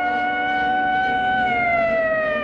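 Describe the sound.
A police car siren wails steadily as the car drives away. The loud tone holds evenly throughout, its pitch sliding gently lower over the few seconds.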